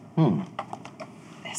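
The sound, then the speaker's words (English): Computer mouse clicks on a character in a video game: a short voice opens, then a few light, sharp clicks follow at uneven intervals. “All we're doing is clicking on an NPC to get the dialogue thing.”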